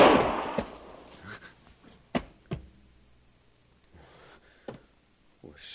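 Gunshots ring out in an Old West gunfight where a man shoots himself: a few sharp, brief bangs spaced apart, with quiet stretches between them.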